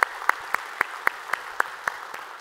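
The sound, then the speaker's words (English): A church audience claps in unison: evenly spaced, sharp claps in a steady rhythm over a quiet background. “So if you would, here in North Garnett, put your hands together, welcome them into our time of study here this morning.”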